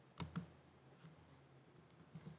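Someone types on a computer keyboard. A few scattered, faint key clicks sound over a quiet background hiss.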